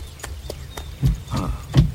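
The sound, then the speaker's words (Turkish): Hoofbeats of a horse-drawn carriage approaching, heard as a few irregular clip-clops, with the later ones louder and heavier than the first. “Bu tarafa doğru bir araba geliyor. Albert ve arkadaşları olabilir.”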